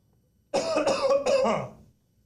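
A short burst of harsh coughing with throat clearing, as from something caught in the throat. Several loud, rough pulses come close together and then stop, with no speech around them.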